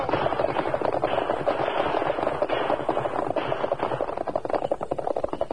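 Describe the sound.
Gunfire rings out in a Western shootout as a dense, continuous clatter of many sharp cracks that stays loud throughout.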